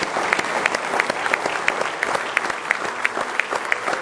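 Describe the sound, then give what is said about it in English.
A church audience applauds during a morning service, welcoming visitors and online viewers with many quick, overlapping hand claps that form steady, moderately loud applause throughout. “Let's give them a nice hand, if you would, this morning.”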